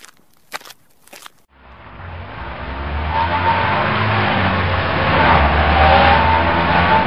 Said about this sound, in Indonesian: Wah, di jalan seperti ini kok ngebut sih? Aduh. Meski ngebut, tapi truk itu suaranya berat,